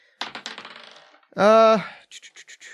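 Dice being rolled: a quick burst of rattling clicks that slows and fades, then a second short run of several sharp clicks.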